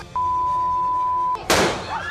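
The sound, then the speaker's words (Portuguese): Police fire a single loud, sharp gunshot to disperse a crowd. Before it, a long, steady, high beep tone plays over a noisy background. “Polícia atira aqui, hein? Polícia atira aqui, hein? Polícia atira. Tira pra afastar.”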